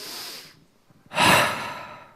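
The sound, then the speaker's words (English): An audience takes a deep breath together during a talk, a soft airy inhale followed by a louder, longer breathy exhale. “let's all together just take a deep breath.”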